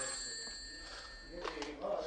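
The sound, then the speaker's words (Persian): A telephone rings with a faint, steady electronic tone that holds for over a second, then voices and speech come in over it. “این تلفن رو جواب بده ببینم چی میگه.”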